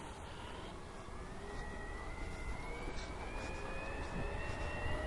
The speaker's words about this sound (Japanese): これウィーンって言ってるのは発電機の音ですからね。